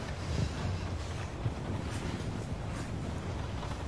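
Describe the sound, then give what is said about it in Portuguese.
Stormy wind blowing in a steady, dense rushing roar that fills the whole stretch without a break, gusting slightly but staying loud throughout. “O que tá pegando essa noite? Essa tempestade tá uma loucura, né?”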